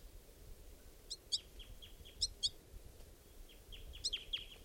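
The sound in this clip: An adult female bird gives begging calls like a juvenile's: short high chirps in a few quick clusters with softer downslurred notes between them, faint over low background noise.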